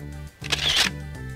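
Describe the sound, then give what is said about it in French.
Camera shutter sound as a photo is retaken: one brief, bright burst of noise, about half a second long, standing out from a low steady background. “Donc je, vais refaire la photo parce que je l'ai un peu foiré. Reprendre photo.”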